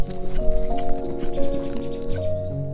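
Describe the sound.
Rapid, uneven hoofbeats of horses galloping at full speed, a dense run of thudding beats that holds loud throughout over a steady tonal backdrop.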